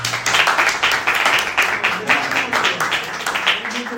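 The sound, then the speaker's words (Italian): Audience applause at a poetry reading during an arts dialogue event, a dense, continuous patter of many hands at a fairly loud level, with faint voices mixed in underneath. “Applauso!”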